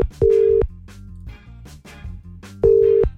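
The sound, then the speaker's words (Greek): Ringback tone of an outgoing phone call that goes unanswered: two steady mid-pitched tone bursts, roughly two seconds apart, over faint background music. “Δεν το σηκώνει ούτε η Μαρία με τα γενέθλια.”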